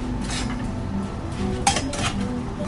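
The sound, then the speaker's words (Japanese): Bacon and eggs being moved from a frying pan into a donburi bowl: light clinks and scrapes of utensils against the pan and dishes, with a few soft clatters over steady background hiss. “出来上がったベーコンエッグがフライパンの中でこんな感じですかね写真撮ってで丼に移します”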